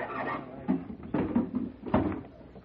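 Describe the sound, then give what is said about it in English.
A wooden crate holding an organ is being opened, producing a few dull wooden knocks and creaks at irregular intervals. Three louder thuds stand out over a low rumbling background. “tell him to take it easy opening that crate.”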